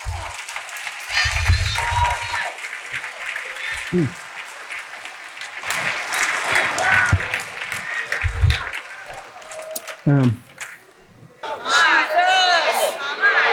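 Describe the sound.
A church audience cheers and applauds in a sustained roar of clapping, shouts and whoops, rising and falling, with a voice speaking through the noise at moments.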